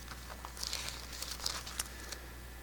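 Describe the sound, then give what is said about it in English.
Soft paper rustling and crinkling as Bible pages are turned to find 1 John, with several faint crackles in an irregular rhythm and no talk. “what is 1 John? Let me just turn there so I don't keep trying to paraphrase.”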